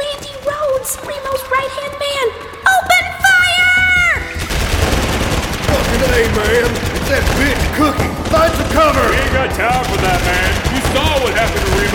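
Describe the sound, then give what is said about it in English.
Assault-rifle gunfire in a damp, winding tunnel. After a few seconds of voices it becomes a dense, loud, continuous roar with no clearly separate shots. “Shut the fuck up and open fire! Eat lead, porn stars!”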